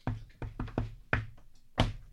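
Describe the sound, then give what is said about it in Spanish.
Knuckles knock on a door in a few sharp, hollow raps: a quick cluster followed by two more spaced knocks, fairly loud against a quiet background. “toque la puerta a ver si hay alguien por ahí.”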